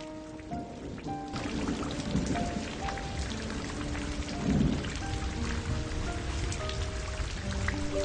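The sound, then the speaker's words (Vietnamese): Wind and rain blow in through an open window at night. The rainfall makes a steady, dense hiss with scattered ticks of individual drops, staying loud and even throughout. “Tả Chấn đưa tay để một cánh cửa sổ ra. Gió chèn lẫn với mưa bụi ập vào mặt, lạnh như băng”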